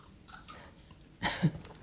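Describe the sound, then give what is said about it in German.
A quick sip from a drink: one short, soft slurping burst near the end, otherwise near-silence. “Ich würde jetzt gerade noch mal einen Schluck trinken. Moment.”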